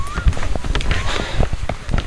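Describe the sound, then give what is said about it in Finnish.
Footsteps in sneakers walk on wooden duckboards, slippery with yellow birch leaves, on a misty, warm autumn morning. Many steady, soft thuds and scuffs follow one another at a walking pace. “Kävelemme puolisen kilometriä, lähinnä pitkospuita summuisena lämpimänä syysaamuna, vähän ennen 8. Maassa on jo jonkin verran koivun keltaisia lehtiä, ja pitkospuut tuntuvat siinä lenkkareiden alla vähän liukkailta.”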